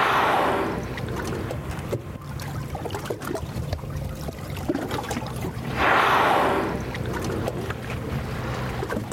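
Two breathy bursts of a whale exhaling through its two enormous blowholes, heard across the ocean surface, each a loud rushing whoosh several seconds apart over a steady low wash of water.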